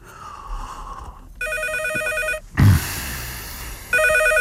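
A telephone rings in two clear bursts of bright, buzzing bell tones, separated by a short gap with a low thump between them.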